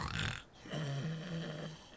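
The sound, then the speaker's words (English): A person imitates snoring with the voice: a raspy, snorting inhale followed by a longer, low buzzing exhale, quiet and alone with no other sounds. “Vister in the corner snoring like a log”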